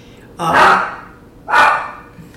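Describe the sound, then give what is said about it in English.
Dogs bark twice, two loud, full-throated barks about a second apart with a short fade after each and nothing else sounding. “it's amazing that I can ever get through a podcast without the dogs chiming in”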